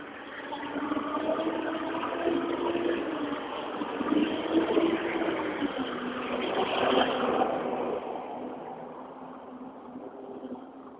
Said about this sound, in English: Sorry for the noise. Garbage truck.